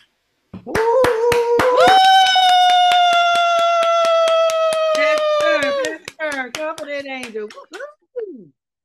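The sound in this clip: A church audience clapping in a steady, even rhythm while one long, held voiced cheer rings over the claps. Several shorter vocal bursts follow as the cheer ends.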